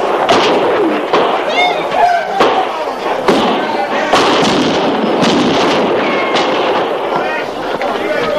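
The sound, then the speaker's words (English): Gunfire rains on a camp under attack: many sharp shots crack and overlap in a loud, continuous barrage, with voices mixed into the din. “They're firing the camp, sir. They can have the camp.”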